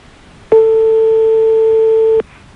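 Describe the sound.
A telephone ringing tone on the line: one loud, steady electronic tone holds for under two seconds, then stops, with no voices.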